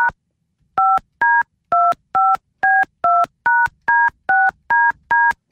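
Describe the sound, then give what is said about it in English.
Touch-tone keypad dialing: a long, evenly paced run of short, loud dual-pitched beeps with brief silent gaps between them, each key press sounding alone and a little different in pitch. “I had to dial 9.”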